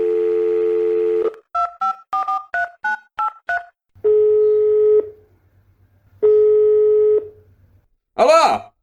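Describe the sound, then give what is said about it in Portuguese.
A landline telephone is dialed for a call: a steady dial tone, then a quick run of keypad beeps, then two long ringing tones separated by silence, ending in a brief rising burst. “Deixa eu fazer uma ligação aqui.”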